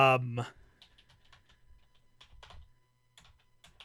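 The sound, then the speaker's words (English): Someone types a message into Discord on a computer keyboard: a brief voice at the start, then many soft, irregular key clicks tapping away quietly. “Type it in Discord and I'll have a reaction.”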